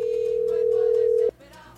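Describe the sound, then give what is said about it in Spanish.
A telephone line tone as a call is dialed out from a radio studio to a listener: a steady single-pitch tone holds for just over a second, then cuts off abruptly, leaving faint background sound. “Vamos a marcar por aquí, por aquí, por aquí, por aquí, por aquí, por aquí. Y ahí está marcando.”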